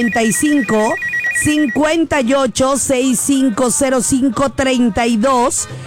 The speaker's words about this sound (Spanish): En este momento voy a habilitar las líneas telefónicas para que puedas marcar al